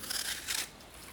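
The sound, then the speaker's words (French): A knife cuts through apples, making two short, crisp crunching slices that are faint and close together. “On va entendre le bruit du couteau qui coupe les pommes.”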